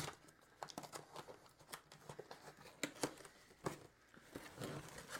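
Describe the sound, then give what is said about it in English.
Cardboard gift box being ripped open by hand: many sharp crackling tears and crinkles in irregular bursts, fairly faint and with no voices. “I rip boxes. It's okay. I don't need the box.”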